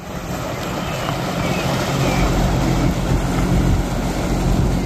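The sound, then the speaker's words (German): Tugboats towing a floating stage across a lake give a steady, low engine rumble under constant wind and water noise, with no clear breaks. “Da fährt sie, die schwimmende Bühne für die Eröffnungsfeier, mit Schleppern einmal über den Maschsee gezogen bis ans Nordufer.”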